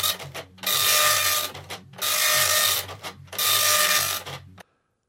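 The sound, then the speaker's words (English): A printer printing in three loud, rasping mechanical passes separated by brief pauses, then falling silent. “Oh, good. It looks like things have just finished printing.”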